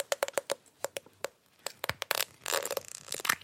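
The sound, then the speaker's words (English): Cracking open a plastic Bionicle toy stone boulder part: a quick run of sharp, crisp plastic clicks and snaps gives way to a denser, louder crunching and crackling burst, with no talk. “We're going to crack open Pohatu's stone boulder.”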